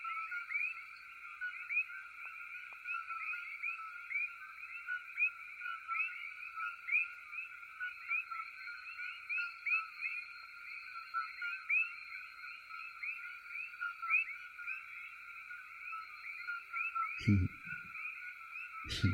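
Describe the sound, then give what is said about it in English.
A dense chorus of coqui frogs calling loudly: high, chirping notes overlap without pause into one continuous, shimmering wall of sound. “Let me play some koki frogs. These are frogs that are really loud, so they're trying to kill them off.”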